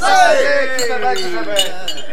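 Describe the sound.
Beer glasses clink together in a toast, a few bright, high rings sounding over a sustained voice.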